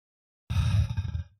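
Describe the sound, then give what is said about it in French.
One deep inhalation through the nose as part of a calming breathing routine. It is a single breathy draw of about a second, fairly loud and alone, that starts abruptly and fades at the end. “Donc, je vais faire inspiration par le nez.”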